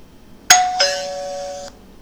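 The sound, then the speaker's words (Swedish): A doorbell rings with a bright two-tone ding-dong, a higher chime followed by a lower one that rings on and fades over about a second, alone against quiet background. “Ja, det ringde på dörren och så kom det in två till snackisar.”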